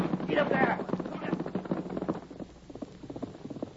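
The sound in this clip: Galloping horse hooves in a Lone Ranger radio drama beat quickly under a shouting man's voice, the hoofbeats continuing once the shouting stops.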